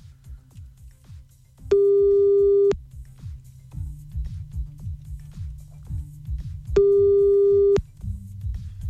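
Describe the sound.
Telephone line tone heard while calling a number back: two long, steady, high electronic beeps of about a second each, with a low pulsing rhythmic sound in between.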